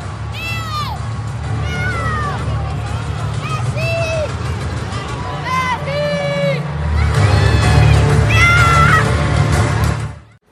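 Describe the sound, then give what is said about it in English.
A stadium crowd roars as both teams walk onto the pitch for a football match in Miami involving Barcelona. Shrill whistles and calls rise above the steady din, which swells louder in the second half before cutting off. “This is the sound of both teams walking onto the field.”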